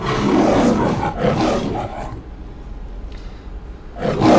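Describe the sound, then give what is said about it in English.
The MGM lion roars in a run of deep, rasping, pulsing bursts, then drops to a low, quieter rumble before another loud roar surges in at the end. “There have been 7 MGM lions. And I believe there was no sound originally, and then they re-recorded a lion roaring.”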